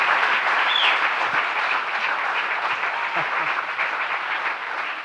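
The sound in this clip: Warm applause from a church audience welcoming a visiting pastor at a Sunday morning service, a continuous, even wash of many hands clapping that holds throughout.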